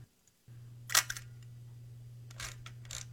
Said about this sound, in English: That's a camera. Yep. Yeah. Olympus camera.